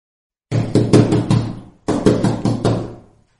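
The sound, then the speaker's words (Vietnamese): Urgent knocking pounds on a room door in two quick bursts of heavy, loud raps with a brief pause between them, and no voices. “Mắt điếc tai ngơ với tiếng đập cửa truyền đến gấp ngoài cửa phòng.”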